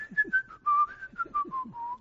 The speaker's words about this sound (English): I whistle every place I go. I can't sneak up on anyone.